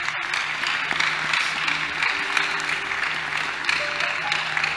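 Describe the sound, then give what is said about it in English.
A church audience applauds during a sermon, clapping for God. The dense, even clapping holds at a moderate level for the whole stretch, with no clear pauses. “Bear fruit. Clap for God.”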